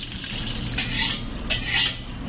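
A utensil stirs crab meat with scrambled eggs, garlic and onions in a pan, making scraping strokes over a soft, steady sizzle, with a few louder swirls standing out.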